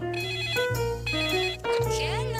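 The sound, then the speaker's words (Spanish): A phone ringtone plays while a call is being placed. It is a steady electronic melody of stepped tones, repeated in phrases with short breaks between them. “Vamos a marcarle.”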